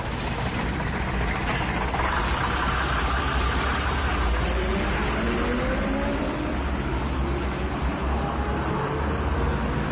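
A car engine runs steadily while the vehicle is driving, giving a constant mid-pitched drone with a faint rumbling texture throughout and no voices.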